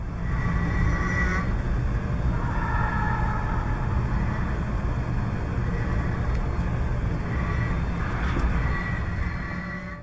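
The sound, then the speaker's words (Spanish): Loud, continuous low rumble of a metro train in a tunnel, with faint higher whining tones that rise above it a few times. “vamos a escuchar no solo un ruido en el tren que los propios ingenieros que están grabando este video lo encuentran extraño, sino algo que se escucha a la lejanía en el propio túnel.”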